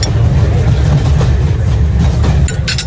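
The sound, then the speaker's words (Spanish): Ambience aboard the Venice Simplon Orient Express luxury train at dinner time: a loud, steady low rolling rumble from the moving train, with a few brief bright bursts near the end. “Hoy les mando la postal sonora a bordo de un tren de lujo.”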